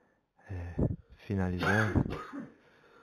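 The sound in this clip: Coughing and throat clearing from a medium during a recording session: a few rough, voiced bursts and harsh throat sounds, fairly loud, with a brief gap between them.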